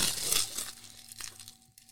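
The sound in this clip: Tough tape and plastic wrapping rip and crinkle as they are torn off a bottle of straight bourbon finished in port casks. Rough ripping bursts come first and loudest, then thinner crackles.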